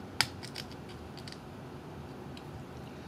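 Crisp plastic snap as a coin cell battery holder with an on-off switch is pried open with a fingernail. One sharp, quiet click is followed by a fainter second tick.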